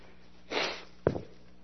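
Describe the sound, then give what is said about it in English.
A person sniffing and blowing their nose makes two short, breathy bursts, a softer rushing blast followed by a sharper, snorting one, both fairly faint and with no talk around them. “Excuse me, I have to blow my nose.”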